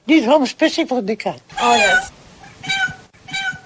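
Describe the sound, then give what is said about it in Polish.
Several cats from a household of ten meowing in quick succession, a string of short wavering meows followed by longer, drawn-out cries of varying pitch, loud and close together. “Zobacz, ile ich tu mieszka. Mam 10 kotów”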